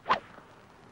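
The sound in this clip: Golf club swing striking the ball at a championship golf tournament: a single quick, faint swish-thwack with a short, soft tail.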